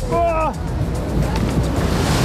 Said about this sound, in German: Wir sind jetzt gerade auf einer Wasserbahn. Biberburg heißt das und wir sind jetzt schon nass geworden.